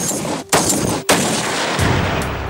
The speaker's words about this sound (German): Wenn der Schuss fällt, ist es für das Ziel zu spät.